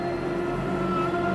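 Car driving along a road, a steady engine and road hum with a continuous low drone that holds even throughout.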